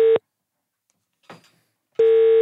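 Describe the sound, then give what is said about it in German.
An outgoing telephone call rings: a steady electronic beep cuts off, a quiet pause follows with one faint brief rustle, then the beep returns at full loudness. “Auch ihn haben wir angerufen.”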